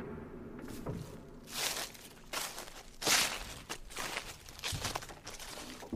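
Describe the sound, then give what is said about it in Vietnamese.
Footsteps rustle and crunch through the dry leaves of a tall cornfield, coming at an uneven pace as a string of scratchy, crackling bursts with quieter gaps between them. “An Nùng bất chợt nghe có tiếng sột xà sột soạt, là tiếng bước chân lúc nhanh lúc chậm.”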